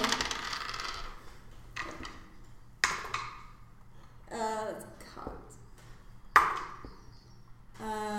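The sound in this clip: Dice rolled during a tabletop game, a few sharp clattering clicks and bounces scattered among people talking, the loudest rattles briefly standing out over the voices.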